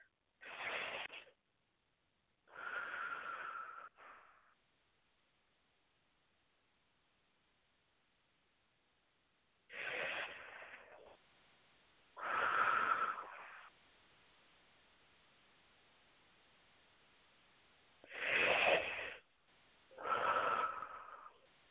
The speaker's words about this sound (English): I want you to go right to your heart, and I want you to breathe. Okay. I want you to really breathe in and out, okay?